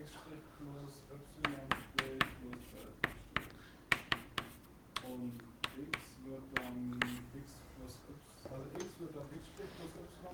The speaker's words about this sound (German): ich habe gerade beschlossen, ich schreibe das